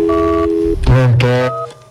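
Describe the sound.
A telephone line gives a steady tone that cuts off, then a busy signal after dialing. A brief voice cuts in over the tones, and the repeating line tones carry on before fading out.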